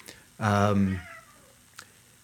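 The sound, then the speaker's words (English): A pet cat gives one loud, drawn-out meow, followed by a faint click. “My cat, sorry, I won't shut up.”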